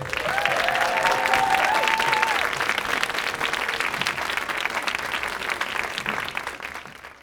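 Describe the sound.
Sustained audience applause at a panel event welcomes two Downton Abbey stars, a dense, even wash of clapping that holds for about seven seconds before thinning toward the end.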